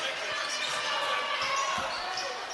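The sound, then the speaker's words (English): A basketball being dribbled on the court during a college game, several soft low thumps under steady, loud crowd noise. “on the dribble across the timeline between the circles to the right side”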